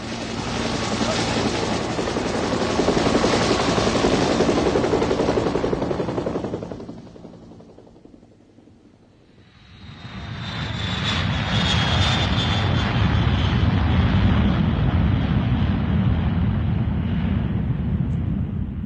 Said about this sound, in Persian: هواپیما اوج میگیره.